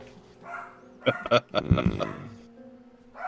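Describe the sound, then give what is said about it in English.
Dogs bark in a short excited burst, a couple of sharp barks followed by a rougher cluster, fairly faint and over a low background hum. “Hold on. My dogs are losing their mind.”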